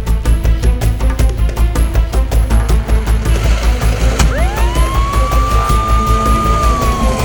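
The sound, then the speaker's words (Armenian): Ambulance sirens wail near a hospital in Vagharshapat. A loud, steady rhythmic throbbing runs throughout, and partway through a tone sweeps upward and then holds at a high, sustained pitch. “Վաղարշապատի հիվանդանոց ցլացող շտապօգնության մեքենայի շչակները։”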